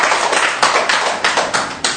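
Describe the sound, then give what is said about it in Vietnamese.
Applause from an audience during a Catholic sermon, congratulating Third Order Franciscans: loud, steady clapping with sharp accents recurring in a regular beat throughout the two seconds. “Chúng ta một tràng pháo tay thật lớn để chúc mừng những anh chị em.”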